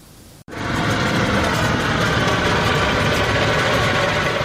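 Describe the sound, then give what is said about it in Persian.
A homemade car's engine, hand-built by a craftsman in Russia's Perm region, cuts in abruptly after a short quiet and settles into a loud, steady idle with a rough, rumbling texture. “این اتومبیل دست‌ساز کاملا کاربردی است و تا 100 کیلومتر در ساعت هم سرعت می‌گیرد.”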